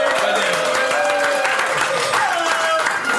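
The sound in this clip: Crowd cheering and applause, a steady, loud wash of clapping with shouting voices mixed in throughout.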